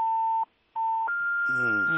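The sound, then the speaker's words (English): Electronic phone tone signalling an incoming call: two steady mid-pitched beeps separated by a short silence, then a longer, higher sustained tone. A voice starts speaking over the final tone. “I think your phone, there's somebody who's trying to call you”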